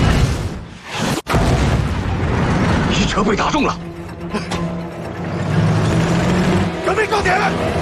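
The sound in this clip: A tank cannon fires in a video game: one sharp, loud boom, followed by rumbling engine and mechanical noise while voices talk.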